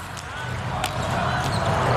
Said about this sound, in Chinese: 塞门纽克的发球。